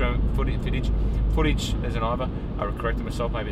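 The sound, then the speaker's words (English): Low, steady engine rumble of a big barge revving in reverse thrust while docking, droning continuously beneath a man's talking. “This big barge that we're on is revving its engines in reverse thrust. That means we're docking.”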